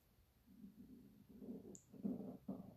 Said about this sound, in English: Don't know if you heard that. That's my stomach. I shouldn't be this hungry.